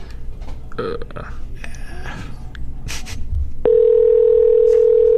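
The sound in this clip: A steady, continuous mid-pitched ringing tone of an outgoing phone call waiting for pickup begins partway through and holds to the end, after a stretch of muffled voices and shuffling noise.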